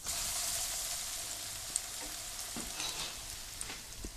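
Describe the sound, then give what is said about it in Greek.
Breaded, meatball-shaped patties coated in breadcrumbs frying in a pan, giving a steady, bright sizzle with a few small crackles and pops throughout. “Και τα κάνω μέσα στη φρυγανιά, τα βάζω με το πανέ και μετά στο τηγάνι.”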